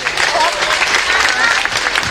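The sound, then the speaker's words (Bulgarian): Applause for a district mayor introduced onstage at a political gathering: steady, dense clapping throughout, with voices audible within it. “аплодисменти за кмета на район Младост, доктор Цвета Авджиева”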